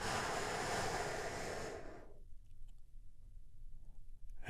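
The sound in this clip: A deep breath during a guided healing-breath exercise: a long, steady rush of breathy air lasting about two seconds, then it cuts off into near silence.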